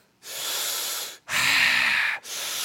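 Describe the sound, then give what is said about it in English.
Slow, deliberate breathing as in a yoga class: a long loud breathy exhale, then a fuller inhale, then another breath begins. Each breath is a steady airy rush with no talking. “Let's exhale all this negative energy and breathe in peace.”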